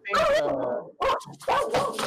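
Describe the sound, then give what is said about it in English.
A pit bull barks in loud, drawn-out, tonal yelps, a few bursts in quick succession with whimpering edges. “I think the barking is on our end, just to let you know. That's Manny's pit bull.”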